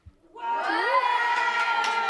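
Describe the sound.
Studio audience participants shout and cheer together on cue. A short faint sound comes first, then a loud, sustained collective yell holds to the end.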